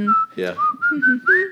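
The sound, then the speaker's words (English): Whistled tune from a group of people in a film scene, a clear, high melody broken into a few short notes and phrases, bright and fairly loud. “But then also the whistling scene. When they all start whistling,”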